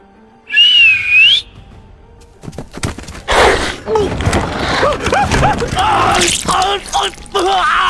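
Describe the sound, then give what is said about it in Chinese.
A single whistle blast from a small hand whistle blown by a girl on a hillside: a bright, wavering high tone lasting about a second, followed by scattered noises and voices. “面无表情地掏出一根哨子，吹了一下。”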